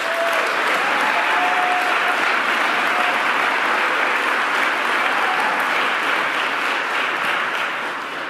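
Audience applause for the mayor of Buffalo at a public announcement event, a steady, even wash of clapping that holds throughout and eases slightly at the very end.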